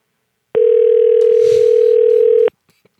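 A telephone dial tone sounds while someone calls back: one steady, unbroken mid-pitched tone that starts and stops abruptly after about two seconds, followed by a couple of faint clicks.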